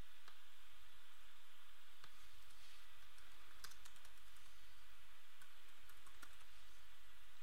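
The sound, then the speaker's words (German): Typing on a computer keyboard: faint, scattered key clicks come at an irregular pace over a steady hiss, with no talking. “Schreiben unsere Überschrift und unseren Text.”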